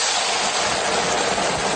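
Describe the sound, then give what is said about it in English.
Cockroaches frying in peanut oil give a steady, even sizzling hiss that holds at the same level throughout, with no voices. “Because Wang prefers his roaches fried in peanut oil.”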